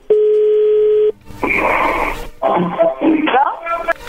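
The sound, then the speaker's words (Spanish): A steady, loud telephone tone holds for about a second as a call is redialed, then cuts off as voices talk and chatter over the line. “¿Puedes marcar de vuelta? Sí, le están marcando de nuevo.”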